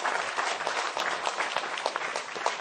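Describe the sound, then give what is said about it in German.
Applause rises in a dense, steady wash of many hands clapping together, moderately loud and even throughout, with no voices over it. “ich würde sagen Applaus. Applaus.”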